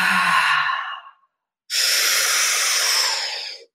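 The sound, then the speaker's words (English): Deep exhalations during guided breath work: two long, breathy whooshes separated by a short silence, the second a brighter, hissier sustained breath that fades out at the end. “Exhale. Inhale. Exhale. Exhale.”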